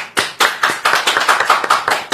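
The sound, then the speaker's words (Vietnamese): Applause from an audience at an Annunciation feast celebration, honouring the women, organisations and communities who keep the Annunciation as their patron. Many loud, ragged claps come in quick succession, with no talk over them. “một tràng pháo tay.”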